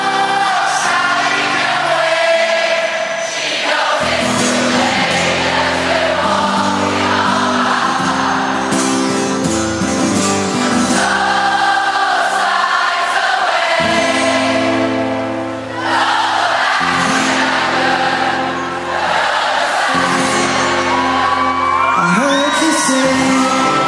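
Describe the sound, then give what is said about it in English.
A large concert crowd sings along in unison with a band's song, the massed voices carrying the melody over loud sustained music, with occasional whoops and yells rising from the audience. “and then they let the crowd take over. That's probably the best song they've ever sang. Yeah, this is the part where the crowd takes over.”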